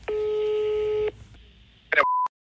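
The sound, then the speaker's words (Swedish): A telephone call being placed: one long, steady ringing tone sounds on the line, then a short burst of beeps and a brief higher single tone before it cuts off. “Så vi tänker att vi ringer honom och ser om han svarar.”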